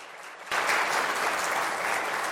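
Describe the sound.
An audience at a First Baptist church applauds to welcome a speaker who steps forward to talk about Martin Luther and the Reformation; after a short quiet moment the clapping bursts in and stays dense and steady.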